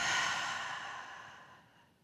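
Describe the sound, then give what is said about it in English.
A deep breath let out during a guided breathing exercise: one long, airy exhale that starts strong and fades gradually over about two seconds, soft and with no talk. “I want you to take a deep breath in, inhale, hold it for 3, 2, exhale.”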